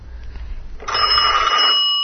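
A telephone rings with one continuous, bright electronic trill that starts partway in over a low rumble and carries on loudly to the end.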